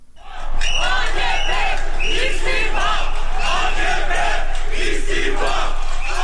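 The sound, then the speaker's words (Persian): Protesters in Istanbul chant in unison for the resignation of Erdogan, a loud, continuous rhythmic chorus of many voices with repeating shouted phrases that swells in after a brief quiet start and holds steady to the end. “این صدای معترضانی است که خواستار استعفای رجب طیب اردوغان هستند.”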